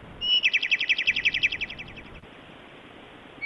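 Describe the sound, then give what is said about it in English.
A bird that has got indoors sings a rapid, even run of high, bright chirps, about a dozen in quick succession, that then fades out into quiet. “How the fuck did a bird get in here?”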